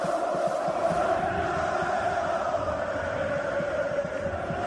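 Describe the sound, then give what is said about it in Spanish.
A stadium crowd at Georgios Karaiskakis, some 20,000 people, welcoming Marcelo to Olympiacos. Massed voices hold a steady, sustained roar with a droning chanted tone throughout. “Mira, este es el sonido del estadio recibiendo a Marcelo.”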